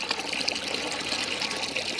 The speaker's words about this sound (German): Eine Wasserpumpe auf dem weitläufigen Schulgelände.